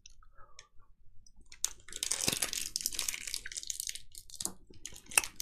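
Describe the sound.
Coconut candies being chewed, giving many crisp crunches and small clicks that are fairly quiet and dense through the middle, with no talk.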